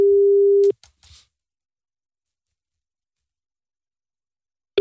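Ringback tone on an outgoing telephone call: one steady, mid-pitched tone lasting under a second, a few faint clicks, about four seconds of silence, then the next tone starting.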